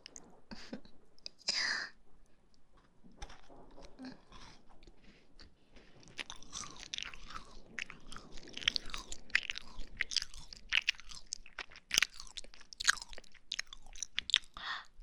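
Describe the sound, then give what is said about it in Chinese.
Crisp crunching and chewing of a crunchy almond milk pastry, with many quiet bites and soft mouth sounds that grow denser and a little louder toward the end. “还有最后一口了，我要吃掉了啊！”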